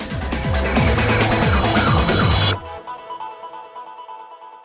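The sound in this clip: An intro jingle: loud, busy music with a pulsing bass line that cuts off abruptly partway through, leaving a quieter sustained tonal tail that fades out.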